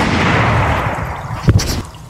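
A single sharp shot from a tiny pistol cracks out partway through as a brief pop over a steady, rumbling background.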